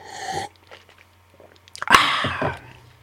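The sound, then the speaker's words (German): A sip of very expensive wine: a few faint mouth clicks, then a louder, noisy slurping sip that lasts about half a second. “Daraufhin noch einen Schluck des sündhaft teuren Weins.”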